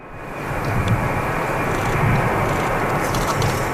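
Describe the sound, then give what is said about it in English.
A passenger plane lands at Bagotville, Quebec, with a broad engine roar. The roar swells over the first second, then holds as a loud, steady rumble with no voices. “it's the sound of a plane carrying four Canadians from the Canary Islands landing this afternoon.”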